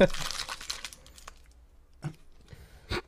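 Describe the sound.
Crinkling and tearing of a snack bag being wrestled open: a dense burst of crackling plastic for about the first second, then quiet broken by a few sharp, isolated crinkles.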